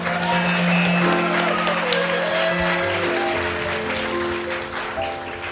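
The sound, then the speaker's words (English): Audience applause greets a special guest trumpet player: steady, full clapping from the crowd that fades slightly toward the end, with sustained musical tones beneath it. “Put your hands together for our special guest, Stan Kessler.”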